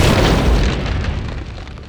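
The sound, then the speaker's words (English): A loud explosion sound effect of a robot blowing apart in a blast of fire and ice: a heavy, full-bodied boom with deep rumble that begins at once and slowly fades over about two seconds. “Boom! With its energy shield down, robot exploded into a blast of fire and ice.”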